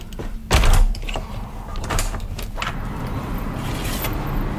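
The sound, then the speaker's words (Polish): A tightly sealed window is opened with a brief low thud, followed by a steady wash of outside ambience that fills in and stays level, with a few faint clicks scattered through it. “Zawsze lubię ten moment, kiedy jest na przykład zamknięte szczelnie okno i jak się otwiera, to od razu czuć taką przestrzeń po prostu dźwiękową, że się nagle otwiera świat.”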